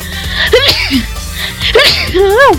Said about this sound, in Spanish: Ay, perdón, voy a estornudar.